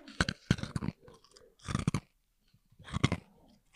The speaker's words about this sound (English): We've got some ASMR ice eating special request by Colin.